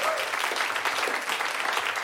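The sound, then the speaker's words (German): Audience applause at a show after a toast to Bulgarian-Turkish friendship: dense, even clapping from many hands that continues steadily without a break from start to finish. “Ein Applaus, die bulgarisch-türkische Freundschaft.”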